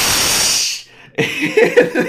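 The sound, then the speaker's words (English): A person hisses at a group of people, voicing a loud, breathy hiss that lasts under a second and cuts off sharply, followed by a short silence and then casual talking. “So finally I'm just like, screw it, and I hissed at all of them.”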